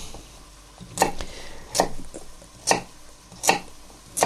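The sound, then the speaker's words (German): A knife cuts food into even pieces with five sharp, evenly spaced chops. The chops are quiet and stand alone with no talking. “Das ist wieder so ein Gericht, wo man so ein bisschen üben kann, gleichmäßig zu schneiden.”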